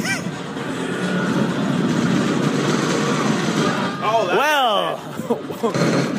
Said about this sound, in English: He has shot one Terminator. The Terminator's still alive. He has shot him.